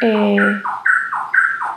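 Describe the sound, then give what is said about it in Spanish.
A small bird chirps in a repeated two-note pattern, a higher note dropping to a lower one, three times in a row, clear and fairly loud after a brief voice at the start. “Un pajarito por ahí, ¿verdad?”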